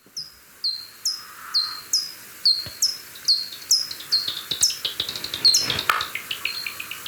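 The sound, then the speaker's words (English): Bat calls picked up with a bat detector and made audible form a run of many high, sharp, downward-sweeping chirps. They start spaced apart and then repeat faster and more densely toward the end, with crackly clicks between them. “Now, you might just have heard that crackly, then popping sound. Now, that is the sound of a bat.”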